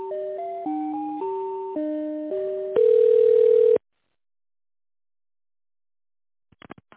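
Telephone tones during a call transfer. A short stepped melody of electronic beeps is followed by one harsh, sustained buzzing tone, then silence and a few faint clicks at the end.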